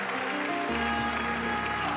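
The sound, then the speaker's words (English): A church audience claps their hands in praise during a worship service. The clapping starts a little under a second in and continues as a dense, steady patter. “Somebody clap your hands to the Lord. Give God praise.”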